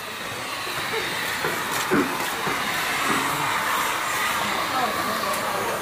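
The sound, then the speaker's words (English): Whirring drone of a small hand motor twisting cotton thread for making jalabas, traditional men's outer garments, in Fez, Morocco; a continuous, even hiss-like hum that holds steady throughout. “Or the noise made by a little hand motor used to twist the cotton thread for making jalabas, the traditional men's outer garment.”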